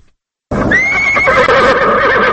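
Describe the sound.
A horse neighs at the stable among President Hamid Karzai's horses in Afghanistan: after a brief silence, one loud, shrill whinny bursts in and carries on, wavering, until the sound cuts off.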